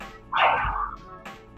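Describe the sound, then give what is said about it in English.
Dogs bark as people walk past with them, one loud, sharp bark standing out over fainter, brief barks and low background noise. “Sounded like a pack of wild dogs just back then.”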